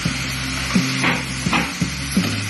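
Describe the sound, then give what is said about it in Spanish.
Rice poured into hot oil and fish juices for paella sizzles steadily, with a few louder scraping bursts of stirring breaking through the hiss. “Entonces vamos a echar el arroz.”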